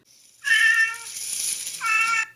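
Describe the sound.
A cat meowing in one long, loud, clear call with a bright, tonal voice that wavers and lifts again near its end, heard alone.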